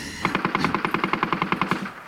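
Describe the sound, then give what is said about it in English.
A machine gun fires one rapid burst of many sharp shots. The shots are evenly spaced and loud, and the steady rattle stops abruptly. “Sound of machine gun blasting away.”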